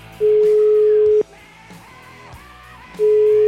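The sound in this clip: Telephone tone while a call is being placed: a steady single-pitched beep lasting about a second, then a gap with faint background sound, then the same tone starting again.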